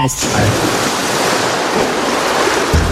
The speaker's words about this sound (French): C'est quoi? C'est de l'eau, c'est ça, c'est de l'eau